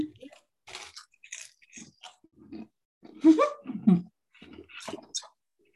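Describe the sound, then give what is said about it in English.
Crisp crunching as an apple cinnamon rice cake sprinkled with tajin is bitten and chewed, a string of dry, crackly bursts with a louder crunching stretch partway through. “Our rice cake is an apple cinnamon one. Let me try it.”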